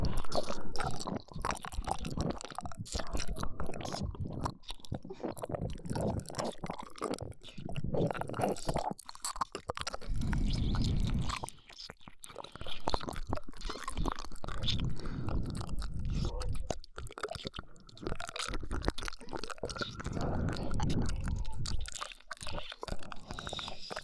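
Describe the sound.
Food being chewed up close: a continuous run of wet, squishy bites, crunches and smacks, fairly quiet, with a brief pause midway and no talking.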